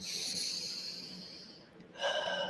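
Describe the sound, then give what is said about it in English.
A deliberate cleansing breath: a long, steady airy hiss, a brief lull, then a shorter and louder breath. “You breathe.”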